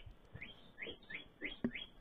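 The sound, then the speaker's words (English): Birds chirping in the early morning, a run of short, high, repeated tweets at a fairly even pace, faint over a steady low background rumble. “This is definitely early in the morning. You can hear those annoying ass birds.”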